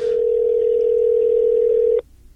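Ringback tone of an outgoing telephone call: one steady, unbroken electronic tone holds for about two seconds and then cuts off sharply, with no voices over it.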